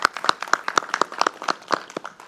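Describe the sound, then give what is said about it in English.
Scattered clapping at a campus gathering, applauding the local police department and campus safety staff. A modest number of sharp, irregular claps with no talk over them. “we must give thanks and applause to our own Ontario PD and our campus safety, always being there for us, please.”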